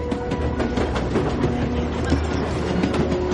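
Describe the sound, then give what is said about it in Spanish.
A steam train moves along the tracks, a steady low rumble of rolling carriages with a faint, rhythmic clatter of wheels running continuously beneath. “El tren avanza expulsando una gruesa columna de humo blanco.”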